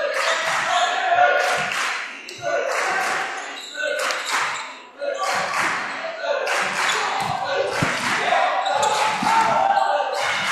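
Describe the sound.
Basketball dribbling on a court during a college game: many bouncing thuds that stand out through a steady crowd murmur and voices.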